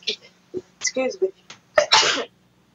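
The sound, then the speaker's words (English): A sneeze bursts out sharply and loudly near the end, preceded by a few short, breathy vocal sounds. “that's not a corona sneeze. No. This is a corona sneeze, they're coming threes.”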